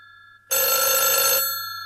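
A telephone rings at night: one loud, bright electronic ring burst that starts abruptly, holds for about a second, then fades away alone with no talk.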